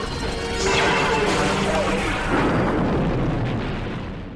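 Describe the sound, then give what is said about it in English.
A loud explosion sound effect for a weapons test firing: a heavy, booming crash that rolls and rumbles for several seconds before fading out. “A major weapons test is imminent. Test bay 94. You may fire when ready.”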